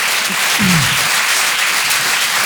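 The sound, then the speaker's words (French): Audience applause for all the mothers at a live show, a dense burst of clapping with a brief shouted cheer near the start. “Est-ce qu'on peut faire du bruit pour toutes les mamans du monde, s'il vous plaît ?”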